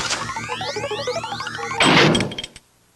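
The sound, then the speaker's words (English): A heavy vault door slams shut with a single loud, broad crash that rings briefly before cutting off into quiet. “He holds it up, showing it to the other men, then tosses it back in the vault and slams the door shut.”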